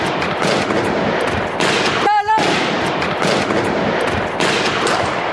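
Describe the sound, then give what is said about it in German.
Gunfire from two masked, heavily armed men storming a newsroom in Paris, recorded on a mobile phone from a neighbouring building. Many sharp cracks and bursts ring out over a dense, continuous noisy background. “Zwei vermummte und schwer bewaffnete Männer stürmen in die Redaktionsräume und beginnen sofort zu schießen. Im Nachbargebäude fliehen verängstigte Menschen aufs Dach. Einer filmt die Szene mit seinem Handy.”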